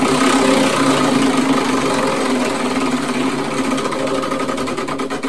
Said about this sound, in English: So we're going to spin the wheel because I've only got four songs in this category.